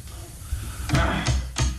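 A door is shut with three solid wooden thuds, evenly spaced in quick succession over low background noise.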